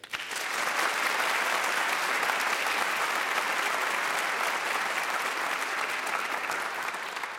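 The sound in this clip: An audience applauds to welcome a 16-year-old flutist from Vienna, Virginia. Dense, sustained clapping swells in at the start and holds at an even, full level to the end.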